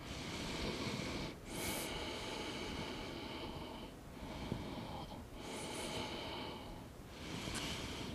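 Slow breathing in and out during a stretching exercise: soles pressed together, knees dropped outward over a ball to stretch the adductors. Breathy airflow rises and falls steadily, with a few brief dips between breaths.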